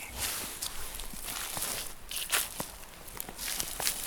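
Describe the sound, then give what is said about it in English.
Footsteps walking through a forest, a steady run of crunching, rustling steps on the woodland floor, moderately loud, with no voices. “We have to make it sound like we're like animals in the forest, so we've got to walk and then stop and then walk and stop.”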